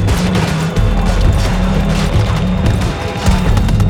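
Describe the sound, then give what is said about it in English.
Explosions and gunfire in a video game battle against Russian forces, with loud, continuous rumbling blasts and crackling shots throughout. “Just threw a grenade on him. Did any real damage?”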